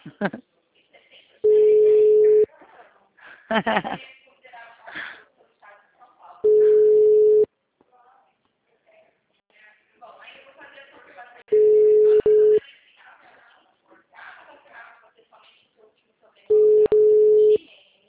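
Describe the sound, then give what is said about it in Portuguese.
Telephone busy tone after a dropped call: four steady, mid-pitched beeps, each about a second long and spaced roughly five seconds apart, with a person talking in the gaps between them. “A ligação caiu, né? Caiu.”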